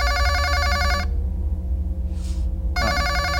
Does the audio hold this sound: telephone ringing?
yes

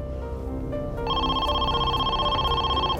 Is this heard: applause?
no

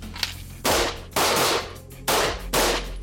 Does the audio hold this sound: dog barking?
no

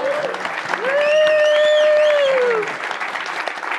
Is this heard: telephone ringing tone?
no

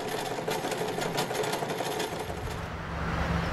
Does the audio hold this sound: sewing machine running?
yes

